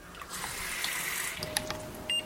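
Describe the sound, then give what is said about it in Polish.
Cold water is poured into a vessel of hot water, making a steady, fairly quiet rushing splash that runs without a break throughout. “wlewamy do gorącej wody zimną”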